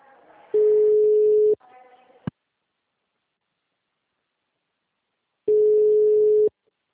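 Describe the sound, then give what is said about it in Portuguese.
Telephone ringing tone while calling someone back: two steady mid-pitched tones about a second long and roughly four seconds apart, with faint line noise and a sharp click before the gap. “Aí eu desliguei pra retornar pra ver se ele atende.”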